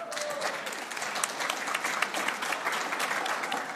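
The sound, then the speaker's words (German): An audience at a book presentation breaks into loud, sustained applause, a dense and steady crackle of many hands clapping throughout. “Und einen Riesenapplaus möchte ich jetzt schon mal hören.”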